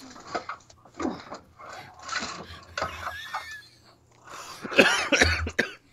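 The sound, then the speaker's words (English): Coughing in a series of rough, loud bursts separated by short pauses, with the final couple of coughs strongest and no talk heard. “I'm just coughing.”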